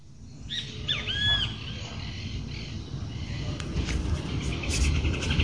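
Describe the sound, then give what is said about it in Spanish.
Birds sing in the morning after a storm: a few faint whistled calls near the start, then a steady high hiss-like chorus over low rumbling background noise. “Continuamos con las voces de la mañana, los pájaros y su alegría después de la tormenta.”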